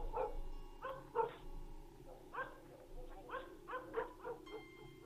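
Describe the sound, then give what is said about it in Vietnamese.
A dog barks loudly in a run of sharp, irregular barks, about eight in five seconds, some coming in quick pairs, over a faint steady background hum. “Bất giác có tiếng chó sủa inh ỏi, vang lên.”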